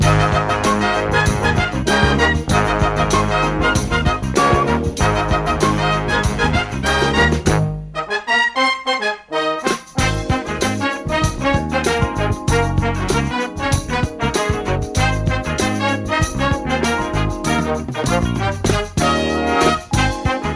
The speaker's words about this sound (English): Bob Cobert. What you just heard was the theme song to the $25,000 Pyramid. If you ask me, one of the best game show themes of all time.